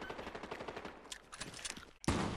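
Rapid automatic gunfire in the video game Fortnite, a fast rhythmic stream of sharp shots that ends in a louder, sustained blast.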